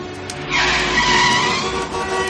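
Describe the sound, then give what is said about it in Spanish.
Cars rush past close by on a city street at a red light as a pedestrian steps into the roadway. A loud, broad hiss of engines and tires swells after a brief quieter start and holds steady, with a faint tire-squeal edge. “Los coches le pasan rozando.”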